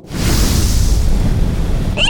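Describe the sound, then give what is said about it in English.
Painted dragons on a racing rover vehicle spew fire with a loud, steady whooshing roar that lasts about two seconds and then cuts off abruptly. “Oh my god, it actually spews fire!”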